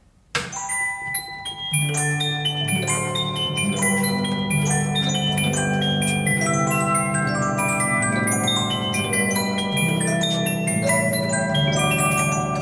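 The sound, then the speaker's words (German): An antique disc music box plays from a punched steel plate: bright, plinking metallic notes. A few separate tones open, then a fuller, continuous tune follows with a ringing lower line beneath the high notes, and no voices are heard. “Das ist eine Stahlplatte mit lauter kleinen Löchern eingestanzt. Und diese Löcher machen dann die Musik.”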